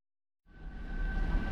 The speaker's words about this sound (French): Dans une station de métro.